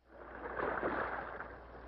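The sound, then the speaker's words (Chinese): A swishing oar stroke from a boat rowed out on a lake, rising and then slowly fading as the water is pushed aside, soft and alone. “西门划船到岸边，拿了渔网回到船上，跟他的弟弟一同划船到湖中央。”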